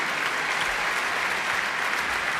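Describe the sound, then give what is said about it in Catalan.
An audience applauds the trumpet and tenor saxophone soloists of the Hamburg radio big band at a concert, a thick, continuous wash of clapping that holds level throughout. “Nicky Iles compartint els aplaudiments amb els solistes de la Big Band de la Ràdio d'Hamburg, el trompetista Ingolf Burkhardt i el saxofonista Nigel Hitchcock.”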